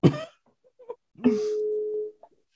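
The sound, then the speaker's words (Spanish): A telephone being dialed for a prank call: a short noisy burst, a few faint clicks, then a steady humming line tone that lasts under a second before cutting off. “Estoy marcando a ver qué, qué dice, güey. A ver si me contesta, luego ni contesta”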